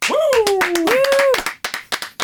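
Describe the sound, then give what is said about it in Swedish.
Hand clapping greets a guest being introduced in a training space. The sharp claps first run under a long voiced call, then several separate claps follow alone at a quick, even pace. “Ovanliga applåder, eller?”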